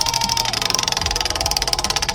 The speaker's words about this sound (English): You want to go ahead and spin the wheel on a Monday? Spin it!